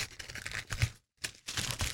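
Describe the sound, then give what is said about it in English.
Wrapping paper tears and crinkles as a wrapped present is ripped open. Short bursts of rustling and ripping come in quick succession, with a brief pause midway. “All right, so we're about to rip this open? Yes.”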